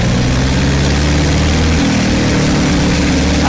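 A 1912 vintage London taxi engine labours up a hill. It makes a loud, continuous low chugging drone with a dense, steady rumble and no pause.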